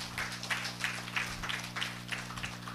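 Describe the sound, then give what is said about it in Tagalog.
Church audience applauding during a service, a faint, steady stream of rhythmic hand claps over a low constant hum. “Sige po, palakpakan po natin ang Panginoon.”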